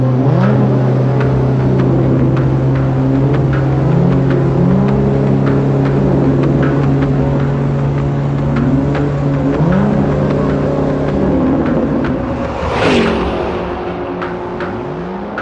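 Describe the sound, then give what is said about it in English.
A futuristic car's engine roars as it barrels out of an alley and speeds off into the night: loud and sustained, its pitch climbing repeatedly through the revs, with a sharp whoosh near the end. “The Batmobile barreled out of the alley and zoomed off into the night.”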